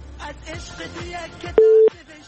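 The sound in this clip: A short, steady telephone tone of about a third of a second sounds as a caller connects to a radio call-in show. It follows a stretch of faint talk.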